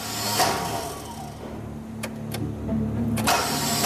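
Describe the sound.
A car engine cranks without catching because it is out of fuel: a steady, low, churning whir with no sign of firing, loud and alone, with a few brief brighter bursts partway through.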